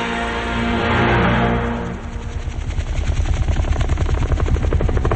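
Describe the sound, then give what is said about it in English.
A helicopter speeds overhead above water dotted with small islands. A loud rushing swell gives way to a rapid, steady rotor chop that thumps on without a break. “Shown from overhead, a helicopter speeds through the sky.”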